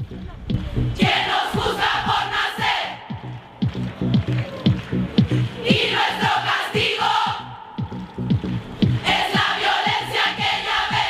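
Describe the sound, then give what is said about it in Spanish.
A crowd of women chants a political message in a public space in Qatar. Loud, rhythmic group chanting comes in repeated bursts, with short pauses between phrases. “Es bien difícil oír tantas voces de mujeres a la vez en Qatar, y mucho menos con un mensaje político, y mucho menos en un espacio público.”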